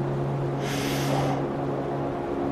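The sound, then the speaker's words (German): A single deep inhale during a guided meditation, a soft airy rush lasting under a second over a steady, humming tonal drone. “Atme nochmal tief ein”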